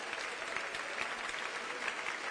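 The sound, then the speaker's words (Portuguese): A church audience applauds the Lord in worship, with faint, steady clapping that stays even throughout. “Aplauda o Senhor e celebre o seu nome.”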